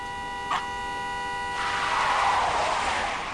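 A car brakes hard on a street and its tires skid, producing a broad, rough screech that lasts nearly two seconds over a steady sustained tone.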